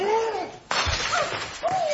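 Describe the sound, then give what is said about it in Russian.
Dishes being smashed by a man: a sudden loud crash bursts in partway through and a rough, clattering noise carries on to the end, with raised voices heard before and after the impact. “Он всю посуду перебьет.”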